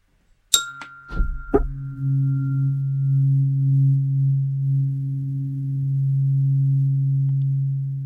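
A tuning fork tuned to the Om tone is struck with a few sharp metallic clinks, then settles into a steady, low, pure hum that sustains evenly to the end.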